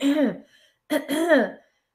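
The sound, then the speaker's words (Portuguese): Throat clearing and coughing, voiced by a person demonstrating a habit that strains the voice: a few short, rough, voiced bursts with a pause between them. “tossir excessivamente e pigarrear. Isso vira um hábito. Tem pessoas que às vezes não estão nem com secreção e ficam fazendo”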